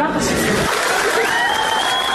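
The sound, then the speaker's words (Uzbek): Applause from many participants in a video meeting, clapping for a female student's words: a dense, steady wash of clapping that lasts the whole stretch, with some speech mixed in. “Video yig'inining boshqa ko'plab ishtirokchilari talaba qizning so'zlarini qarsak bilan qutlashgani aks etgan.”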